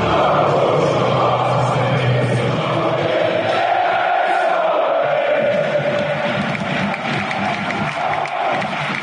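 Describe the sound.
A football crowd celebrating SV Waldhof Mannheim, a third-division side, knocking Bundesliga club Eintracht Frankfurt out of the DFB-Pokal 2:0, with a loud, sustained roar of cheering that stays continuous throughout.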